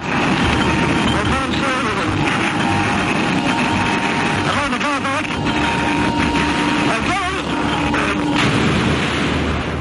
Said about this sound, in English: that's the sound of the iconic Bluebird K7 back in the 1960s that saw Donald Campbell lose his life